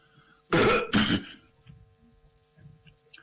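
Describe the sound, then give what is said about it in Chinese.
A man clears his throat in two harsh, rasping bursts close together, followed by faint low murmuring and quiet. “清了清嗓子”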